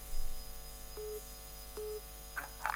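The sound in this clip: Telephone line tones from an incoming radio listener's call: two short steady beeps evenly spaced, then brief crackling bursts, all faint against a low hum.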